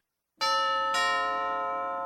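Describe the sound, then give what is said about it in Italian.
A two-tone doorbell sounds against silence, with two clear chime strikes about half a second apart, the second ringing on and slowly fading. “Il campanello.”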